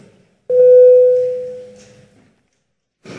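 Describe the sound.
A single bell rung to call a vote in a parliament chamber: a clear, mid-pitched tone that strikes sharply and then fades over about two seconds, with a brief sound afterward.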